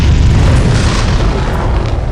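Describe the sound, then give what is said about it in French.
A deep explosion blasting open a rocky entrance, heard as a heavy, sustained rumbling roar that stays loud and steady across the whole clip without clear separate bangs. “L'entrée venait d'exploser.”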